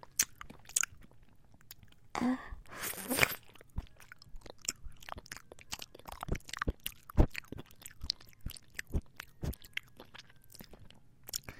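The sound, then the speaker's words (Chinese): Someone bites into strawberry-flavoured jelly and chews it, with a firmer bite early on followed by many small, faint, wet clicks and squelches. “我先咬一口，然后你吃，”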